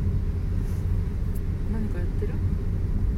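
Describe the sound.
Low, steady rumble of vehicles outside near construction work, a continuous dull drone with no distinct individual passes.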